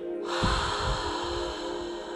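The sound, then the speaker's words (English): Deep breathing exercise: a breath drawn in and pushed out, heard as continuous airy rushing with no talk. “And it's going to sound something like this. You breathe in, hold it, and exhale.”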